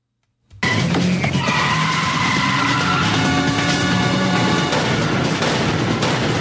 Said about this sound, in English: Jack one-handedly, he's holding a gun in the other hand, puts the car into a controlled 180 spin.